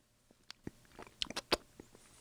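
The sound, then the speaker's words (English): Spoon-tasting of hot chowder: a few short, sharp mouth and spoon clicks with a louder crunchy, slurping burst around the middle, otherwise quiet. “And I want you to tell me how good that chowder is. It feels like the bowl is very hot. Yeah, well, you can give it a little blow in the spoon. Yeah, get a little blow. I'll try some too while we're here. Get a whole spoonful.”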